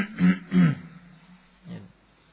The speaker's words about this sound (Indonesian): Nah, kemudian berdehem ya. Berdehem.